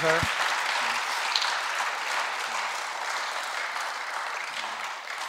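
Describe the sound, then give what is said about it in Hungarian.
Church audience applauding, a steady wash of clapping that holds at an even level for the whole stretch, with faint voices briefly heard underneath. “Úgyhogy adhatunk egy nagy tapsot neki.”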